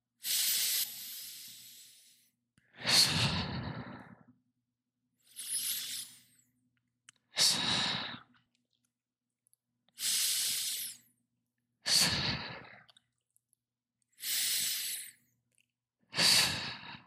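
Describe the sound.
Slow, deep breathing during a guided meditation: eight airy, hissing breaths in unhurried alternation, some softer and some fuller, each separated by a short silence, with no voices.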